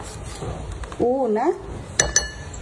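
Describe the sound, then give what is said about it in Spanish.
A spoon stirs a ground cinnamon mixture in a small pot, ending in two sharp metallic clinks close together. A brief vocal sound comes earlier, over a faint background rumble. “Vas a añadirle también 2 cucharaditas de canela molida. Bueno, una buena cantidad de canela molida. Vamos a mezclar.”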